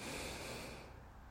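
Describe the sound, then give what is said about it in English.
One deep inhale through the nose, a single long, steady, airy rush of breath that is quiet throughout and eases off slightly toward the end. “Inhale through the nose, big inhale.”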